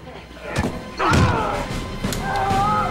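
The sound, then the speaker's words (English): Blunt thuds of punches and knee strikes to the stomach in a hospital fight, a few heavy, muffled impacts landing in quick succession. “Jake, gun butts his head, then punches and knees him in the stomach.”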